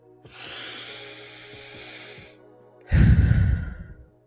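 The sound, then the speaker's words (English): A person takes a deep breath: a long, airy, hissing inhale followed by a louder, forceful exhale that fades out, with no talk. “So, as always, let's take a deep breath.”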